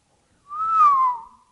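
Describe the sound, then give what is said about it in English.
A single reverse whistle, made by breathing in rather than out, holds a clear mid-pitched tone for about a second before easing slightly lower and fading. “That was a reverse whistle.”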